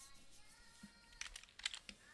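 Typing on a computer keyboard while writing a chat message: a few light, quick keystroke clicks clustered in the second half over a faint steady hum.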